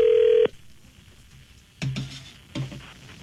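A telephone number being dialed: a steady electronic tone for about half a second, then after a pause two short dialing tones spaced under a second apart.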